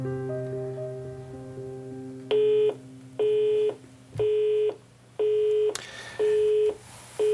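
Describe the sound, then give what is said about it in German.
Telephone signal tones while a call is placed to a newspaper: five identical, evenly spaced beeps of the same pitch, each about half a second long, after a quieter opening stretch. “Ja, das ist das bisherige akustische Zeichen, wenn man das wählt.”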